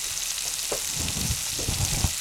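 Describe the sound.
Food frying in pans with a little fat gives a dense, continuous sizzle. Soft stirring and scraping noises come through beneath it.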